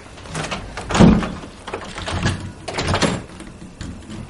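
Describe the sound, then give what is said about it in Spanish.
A door is closed and locked with a key in a film scene, giving a few muffled thuds and clunks of varying loudness, the strongest near the start. “se levanta a cerrar la puerta con llave.”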